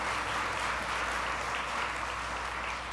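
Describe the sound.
An audience applauds to welcome a guest preacher, a steady, even wash of many hands clapping that holds at a moderate level throughout.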